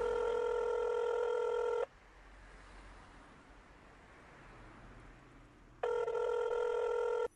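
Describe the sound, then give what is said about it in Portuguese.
A telephone ringing tone plays while someone is called. Two long, buzzy rings are separated by a pause of roughly four seconds, with only faint hiss between them. “eu ligo para ele, ligo pro Douglas”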